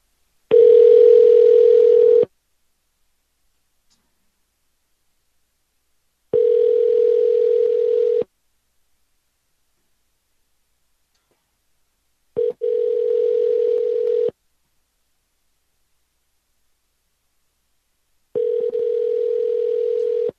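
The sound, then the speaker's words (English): Ringback tone of an outgoing phone call placed to leave a message: four steady electronic tone bursts of about two seconds each, separated by long even silences, with no voices. “We will call and I guess leave her a message if she doesn't pick up.”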